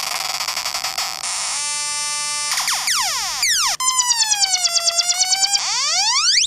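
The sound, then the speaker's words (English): A Korg Monotron analog synthesizer plays a loud, buzzing sequence: a steady drone, then a stepped tone, then rapid sweeping swoops, and finally a fast wobbling warble that pulses rhythmically. “this is the Korg Monotron. It makes sounds like this.”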